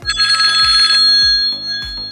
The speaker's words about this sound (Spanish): otra llamada. Otra llamada.